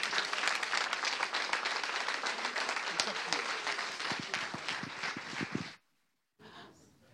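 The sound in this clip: Sustained audience applause welcoming a guest minister to the stage at an Eastside gathering: dense, steady clapping that holds at an even level, then cuts off abruptly near the end, leaving a brief faint rustle.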